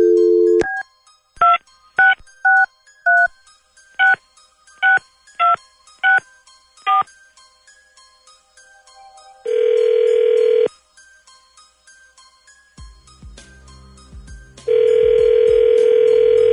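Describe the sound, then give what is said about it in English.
Telephone number being dialed on a keypad, a quick run of about a dozen short, loud tones in an uneven rhythm, followed by two long, steady ringback buzzes separated by a pause, with a faint low hum between them. “let's call him, and then we'll see if he answers real quick. Dialing at random.”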